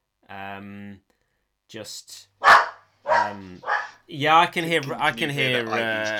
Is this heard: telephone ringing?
no